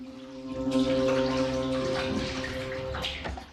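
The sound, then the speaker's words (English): Water runs from a tap into a sink as hands are rinsed under it. The flow is steady and splashy and starts after a brief quieter moment, with uneven bursts of splashing from the hands and a low hum underneath. “He wipes some dirt off the new tank with his sleeve, then wanders over to a sink and rinses his hands.”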